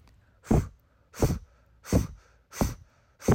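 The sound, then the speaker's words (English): Five forceful blow breaths pushed out only through the mouth, each a short, loud rush of air. They repeat in a steady, evenly spaced rhythm, with near silence between them. The last one is cut off. “Then we're going to move to the blow breath, which is only through the mouth, and it sounds like this.”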